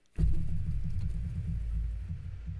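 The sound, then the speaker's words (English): A wheel spun during a drinking game starts abruptly and becomes a sustained, low rumbling whir that holds steady for over two seconds and eases slightly near the end, with no talk. “So it's your turn to spin the wheel because I'm telling the story. All right. So time to spin it.”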